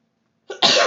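A single human sneeze from a nose tickle: a short, soft intake, then a loud, sharp burst of breathy noise, heard alone after silence.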